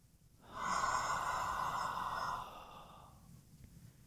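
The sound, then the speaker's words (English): A single long exhale after a held breath: a steady, breathy rush that holds for about two seconds, then tails off softly into quiet. “Hold it for 3 seconds and then exhale.”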